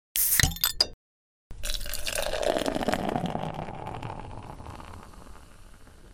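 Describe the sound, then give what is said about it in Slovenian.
Fresh beer pouring into glasses: a few sharp clicks, a short silence, then a loud, steady frothy pour that slowly fades away. “imamo že suha grla, da si nalijemo novo pivo”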